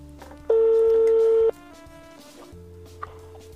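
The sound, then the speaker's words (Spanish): A telephone call rings out with a single steady tone lasting about a second, loud and clear against quiet background, followed by a low hum. “Aquí estamos llamando al gran hombre.”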